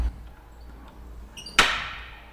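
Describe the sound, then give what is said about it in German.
Air hisses as a valve is opened: after a quiet stretch with a few faint tones, a sudden burst of hissing starts sharply and then fades away over under a second. “Kann ich das Ventil auch ein bisschen öffnen? Ja, klar.”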